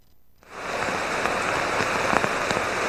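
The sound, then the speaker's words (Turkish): A heavy rain downpour during a week of storms in Istanbul surges in after a brief quiet moment. It becomes a dense, loud, steady hiss with scattered sharper droplet patters. “Meteoroloji ve AKOM'un peş peşe yaptığı uyarıların ardından İstanbul'da bir hafta sürmesi beklenen sağanak yağış etkisini gösterdi.”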